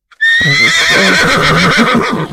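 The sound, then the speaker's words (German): A horse lets out one long, loud whinny of about two seconds with a wavering, pulsing tone that carries on to the end, heard alone without voices. “Ja, Pferde gibt's auch”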